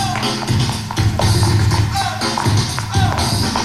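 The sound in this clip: Breakdancing footwork on a floor as a dancer performs a run: many irregular, fairly loud thumps, taps and scuffs in quick succession, with a steady tonal background underneath.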